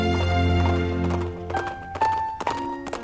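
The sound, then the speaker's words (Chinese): Horse hooves clop as a rider leaves Marseille on horseback. A few irregular hoof thuds sound alone, moderately loud, alongside some brief tonal sounds. “他还去探访了加泰兰村，之后又骑马离开了马赛”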